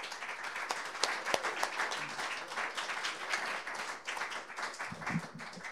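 Audience applause welcoming a performer to an evening music gathering: moderately quiet, steady clapping with some sharper individual claps standing out.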